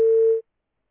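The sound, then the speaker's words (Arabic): A single short electronic tone as a phone call drops on a radio call-in line: one steady mid-pitched beep lasting under half a second, then silence. “طيب معلش انفصل اتصال”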